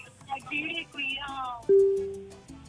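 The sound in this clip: A phone tone sounds as a call drops: a single steady, mid-pitched beep lasting under a second that fades out, coming right after people talking, with more talk at the end.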